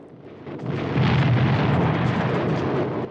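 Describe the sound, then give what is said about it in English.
Vast enemy guns blast from a clifftop emplacement with a deep, loud, roaring rumble. The sound swells over the first second and then holds as one sustained heavy roar rather than distinct separate shots. “They set about abseiling down the front of the emplacement on their ropes, the vast enemy guns blasting away right beside them.”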